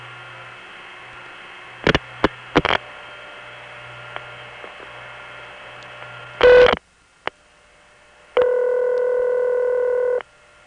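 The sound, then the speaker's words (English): Telephone switching signals from multifrequency tones and dial pulses passing through crossbar tandems: a steady hum broken by a few sharp clicks, then a short, dense tone burst, and finally a long, steady multi-pitched tone lasting about two seconds. “it goes to the Bronx crossbar tandem, which MFs 7 digits to Binghamton crossbar tandem, which again dial pulses into a step.”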